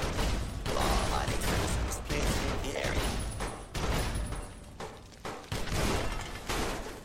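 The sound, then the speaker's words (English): Dense, rapid gunfire and heavy blasts from a video game fight as a hostile Protectron robot is destroyed, with many loud, overlapping bursts and thuds running almost continuously. “He blowed up good.”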